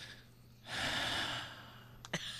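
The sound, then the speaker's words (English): A person draws one long, deep breath: a broad, airy rush that swells quickly, holds and then slowly fades. It is heard on its own, with no talking. “takes a deep breath.”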